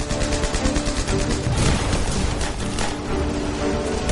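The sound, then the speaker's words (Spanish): Gunfire in a World War II trench battle around German trenches in a French village: a loud, dense rattle of rapid, overlapping shots that forms a continuous wall of noise with no clear gaps. “¡Seguid disparando!”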